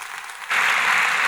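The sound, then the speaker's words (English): A church audience applauds to welcome a speaker. Moderate clapping swells abruptly to a fuller, louder round halfway through and then stays steady. “So Martin's going to come and deliver the word for us today. So would you guys just welcome Martin Sanders?”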